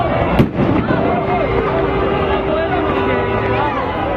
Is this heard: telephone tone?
no